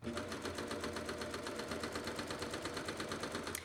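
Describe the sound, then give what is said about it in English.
A Baby Lock Enlighten serger stitches with decorative thread at a moderate speed, a faint, steady, rapid mechanical whirring with an even, fast pulsing rhythm. “My machine's not moving quite as fast because it's taking more stitches, okay?”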